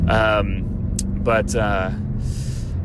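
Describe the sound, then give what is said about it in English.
Steady low engine and road rumble from inside a moving car runs beneath a person talking in short bursts, with brief quieter pauses between phrases. “So I'm actually driving to Best Buy right now to look at some monitors”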